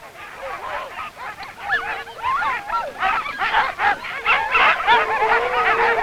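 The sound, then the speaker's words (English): Husky sled dogs of Antarctic exploration barking and yelping in a dense chorus: many overlapping, high, wavering calls that run continuously without pause. “Huskies have run right through the adventurous history of Antarctica, and following behind these faithful dogs, men have explored a continent.”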